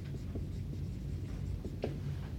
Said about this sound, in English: The statement, I'm gonna write this on the board, right? I'll write it word for word